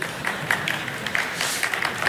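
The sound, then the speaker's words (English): Dayspring students applaud, a lively run of clapping with some crisp, sharp claps standing out above the steady patter. “That was all the Dayspring students clapping, by the way.”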